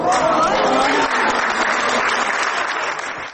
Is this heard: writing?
no